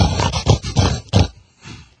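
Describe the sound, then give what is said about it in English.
Oinking grunts at the start of a blues-rock tune: a handful of short, rough, nasal bursts in a choppy rhythm, the last one fainter and separated by a brief pause. “they start the whole tune off oinking”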